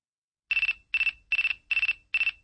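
Mobile phone message notification tone: five short, evenly spaced bursts of a bright, high-pitched warbling chirp, each made of a few rapid pulses, with silence between them.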